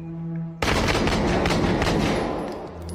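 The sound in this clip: Gunfire from a played video bursts in abruptly after a brief tonal passage and continues as a loud, dense, sustained volley of shots to the end.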